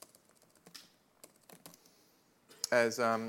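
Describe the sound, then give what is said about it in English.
Light, irregular typing on a computer keyboard, a scatter of soft key clicks with uneven gaps, before a voice starts talking near the end. “I need to declare a couple of variables, and you know, you paid good money to see me type this stuff.”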